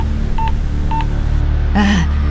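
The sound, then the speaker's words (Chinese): A telephone number is dialed: two short, clear keypad tones a moment apart over a steady low hum, followed by a brief warbling electronic tone. “但后来想想不对，又拨了一通电话向儿子瑞金确认。”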